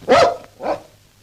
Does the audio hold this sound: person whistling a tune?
no